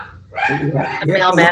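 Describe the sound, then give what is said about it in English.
Dogs bark and yip at home in a few loud, high-pitched, drawn-out bursts with a tonal, whining edge, one after another with brief gaps. “I apologize for my dogs.”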